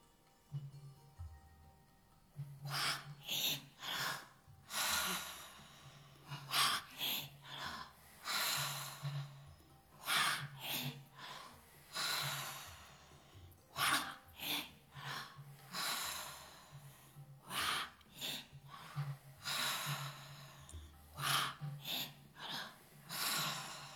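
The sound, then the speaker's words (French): Slow, deep breaths in and out during a guided breathing exercise, quiet and unhurried. Many drawn-out inhales and exhales follow one another in an even rhythm, each swelling and fading, over a faint steady low hum. “Et inspirez. Et expirez. Et on recommence.”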